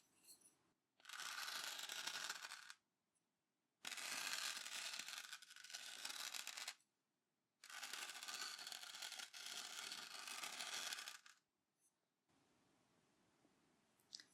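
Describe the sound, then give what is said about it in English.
Scratchy strokes of a pen writing numbers by hand on paper in a soft, sleep-oriented setting: a few long stretches of faint, dry scratching separated by short silences, with no voice. “I'm going to write some numbers for you”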